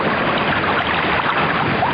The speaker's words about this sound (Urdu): سمندر کا بہتا پانی